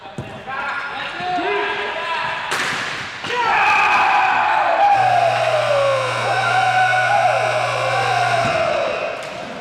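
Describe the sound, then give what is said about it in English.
A crowd cheers a game-winning ball hockey goal in double overtime at a spring championship. A sharp hit leads into a loud, sustained roar of yelling and whistling that stays strong before easing slightly at the end. “And this is the sound of the game-winning goal just 8 seconds into double overtime.”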